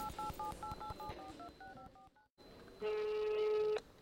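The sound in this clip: A telephone call being dialed: a rapid run of touch-tone beeps at even spacing, a brief silence, then a loud, steady electronic phone tone that holds for about a second and stops abruptly.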